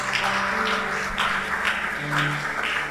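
A church audience applauds in a steady wash of clapping that swells in a few waves, with sustained low musical tones humming underneath.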